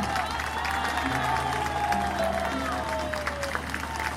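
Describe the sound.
Applause from an audience in Valparaíso for a Chilean huaso folk group: a steady wash of clapping with sustained tonal sounds running beneath it.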